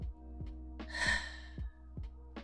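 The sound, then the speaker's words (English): A single deep breath is drawn in through the nose as a soft, breathy rush lasting about half a second, over quiet background music with evenly spaced low plucked notes. “Close your eyes and take a deep breath. Inhale.”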